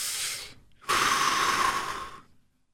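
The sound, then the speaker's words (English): A person takes a deep breath, heard as two airy, hissing rushes. A shorter one comes first, then after a brief pause a longer, louder one that slowly fades out. No talking. “Take a deep breath.”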